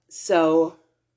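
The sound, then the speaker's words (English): A single yawn from a person, opening with a breathy rush of air that becomes a drawn-out voiced tone lasting about half a second before it trails off, heard alone with no talk. “wow, sorry, that was a yawn, guys. My apologies.”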